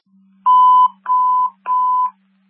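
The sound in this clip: Dispatch alert tones sound for a fire rescue call: three loud, steady, mid-pitched beeps of equal length, spaced evenly, over a faint low hum.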